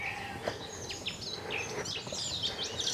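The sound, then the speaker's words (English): Birdsong in Brecon Beacons woodland on a gentle morning: many quick, high chirps and trills from several birds, fairly soft over a steady faint hiss. “So much bird life.”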